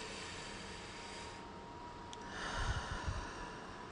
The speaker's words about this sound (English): Going to inhale and exhale again.